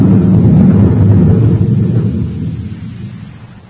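A spaceship lands on Mars in a radio drama sound effect: a loud, low, heavy rumble that holds steady, then fades away over the last two seconds, with no voices.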